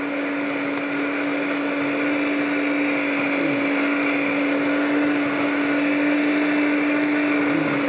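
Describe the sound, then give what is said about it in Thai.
Electric mixer beating a white cream mixture, a continuous steady motor whine with a strong sustained hum that holds an even pitch and loudness throughout, with no talk. “ถ้าเราทำคนเดียวเราก็ตีไปแล้วเราก็หยุดเพื่อที่จะเติมสารแต่วันนี้พอดีทำกับอาจารย์สองคนเดี๋ยวคนนึงจะตีไปเรื่อยๆแล้วเดี๋ยวอีกคนนึงก็จะเติมสารสำคัญลงไปเดี๋ยวจันตีไปเลยนะคะ”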